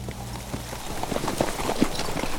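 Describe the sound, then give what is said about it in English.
Horses' hooves clip-clop as riders lead a column of troops, a run of many steady, overlapping hoof strikes at moderate loudness with no voices. “Moore and Lester rode at the head of the column of hand-picked troops with General Brockner.”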